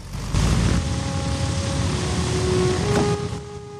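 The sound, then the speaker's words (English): A B-17 bomber taxiing away from its hard standing: a loud, steady drone of piston engines with a sustained hum running through a broad rumble. “He closes the window, and the plane is waved off the hard standing. The wheels slowly turn, and the aircraft's nose seems to lollop as the B-17 pulls away.”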